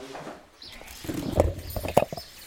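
A chain fly curtain hanging from a door brushes over the microphone, its metal links rattling and scraping in soft clustered clinks that build to a louder rustle.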